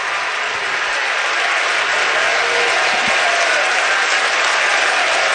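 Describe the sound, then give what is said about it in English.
Baseball fans along the first base and right field line cheer and applaud during a championship series game. A dense, steady wash of clapping and crowd noise holds at an even level throughout, with no single voice standing out. “And now the Oklahoma fans, who are along the first base and right field line, are making noise, trying to encourage the freshman to make this a 1-2-3 inning.”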